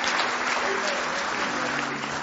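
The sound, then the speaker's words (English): Church audience clapping their hands in praise during a worship service: dense, steady, loud applause that fills the whole clip with no break, with a faint low tone held underneath. “Let's give Him one more hand clap of praise tonight.”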